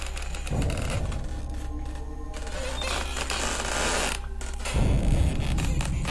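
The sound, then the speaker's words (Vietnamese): Servants pry nails out of a wooden coffin lid, making a steady grinding creak of straining wood and metal that drags on with little break and surges louder toward the end. “Cho đến khi cái đinh cuối cùng được bật lên, nắp quan tài được dỡ xuống, ai nấy đều ngỡ ngàng.”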